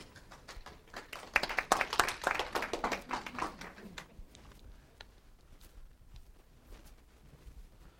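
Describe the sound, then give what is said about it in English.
A church audience claps during a Christian service. The applause is brief and thin, with loose, uneven claps that build for a few seconds and then thin out to scattered faint taps. “And I've turned on my mic a little early to catch some of that clapping, and it was a little, little lackluster.”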